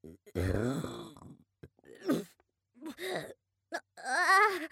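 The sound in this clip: A loud, low, rasping burp bursts out in the middle of talking, followed by several short voiced utterances from the same person.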